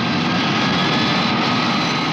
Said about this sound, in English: An airplane slowly rolls on a dark runway.